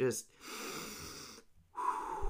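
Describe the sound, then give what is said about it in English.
A deep cleansing breath, drawn in through the nose and let out through the mouth: two long, airy rushes of breath separated by a short silence, the second starting strongly. “Just a nice deep cleansing breath in through the nose and out through the mouth.”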